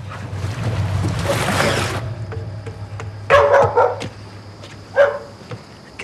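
A dog barks a few times beside water as a man climbs out and kneels by it. The barks are short and sharp, rising over steady background noise, with a broad rushing noise earlier.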